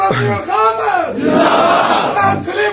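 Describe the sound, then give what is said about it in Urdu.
Loud crowd chanting religious slogans in unison at a religious gathering, massed voices surging in a few rising and falling shouted waves that fill the whole clip. “وہاں کے موسم کا لحاظ رکھتے ہوئے نعرے کم لگائیں، ان کو ضرورت ہوگی تو خود لگا لیں گے انشاءاللہ تعالی.”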